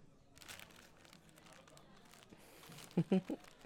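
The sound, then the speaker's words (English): Paper crinkling as a greeting card is opened: after a stretch of soft, low rustle, a few short, sharp crackly bursts come close together at the end. “You have to read the card after opening it. No, I won't tell you why you have to read it afterwards. Come on, open it.”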